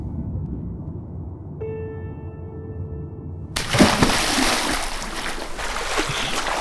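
Someone jumps into a water-filled mine shaft. After a steady tone, a sudden loud splash gives way to continuous churning, rushing water that carries on to the end.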